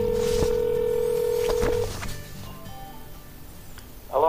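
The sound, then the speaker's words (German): A telephone line during an international call to Hawaii gives a steady, loud tone for about two seconds, then drops to a faint, hissing line with scattered soft clicks. “Ich habe jetzt Serge King direkt in Hawaii angerufen und wir werden das Interview gleich beginnen”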